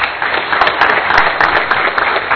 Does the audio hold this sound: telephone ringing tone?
no